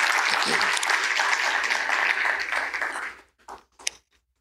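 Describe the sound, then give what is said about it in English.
Warm applause in a church for a newlywed couple, both pastors, from Petersburg. Dense clapping holds steady for about three seconds, then thins to a few scattered claps and fades out. “So give them a great big hand. Congratulations.”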